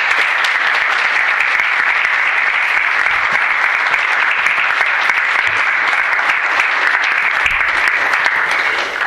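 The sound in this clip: Loud, dense audience applause greets a lecturer, the founding president, at a college's 30th anniversary event, sustained at a constant level for the whole stretch.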